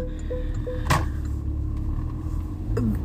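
Inside a car while driving, a steady low rumble of engine and road noise runs throughout, broken by a few faint, brief higher-pitched squeaks and a short click.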